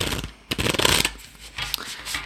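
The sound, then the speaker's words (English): Tarot cards being shuffled, a few bursts of papery riffling and rustling with short pauses between them, loud and without any talk. “So I'm going to do a little shuffle here.”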